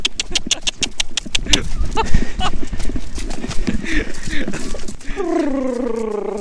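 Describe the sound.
Hoofbeats of a horse being ridden and urged to run faster: a rhythmic clip-clop of many quick, sharp beats, then a short tonal voice-like sound near the end.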